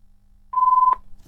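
A telephone rings as a clean, steady, pure-toned beep about half a second long, alone with no talk, and a second ring begins just as the sound ends.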